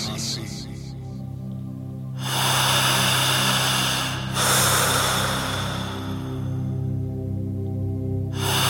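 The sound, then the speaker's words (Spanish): A slow guided breathing exercise: two long, airy breaths rush softly through for several seconds each, over a calm, sustained musical drone. “Cierre los ojos y comience a respirar exactamente así.”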